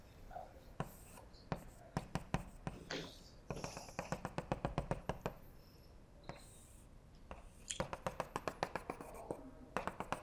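Hand-drawn strokes of a diagram, a constant-U slice of a Penrose diagram, scratch out in many quick, sharp taps and scrapes, grouped in bursts with short pauses between.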